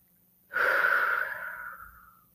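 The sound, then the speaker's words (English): A single deep breath: a long, airy hiss that starts abruptly, holds steady, then tapers off gradually over nearly two seconds. It is faint and heard alone. “Having said that, let us take a deep breath.”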